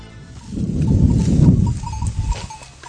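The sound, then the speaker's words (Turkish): Bleating from farm livestock kept for milk, meat and wool, with a few bleats heard over a steady low rumble. “Sütüyle, etiyle, yünüyle Allah'ın bize nimet olarak yarattığı bu hayvanlar oldukça değerli.”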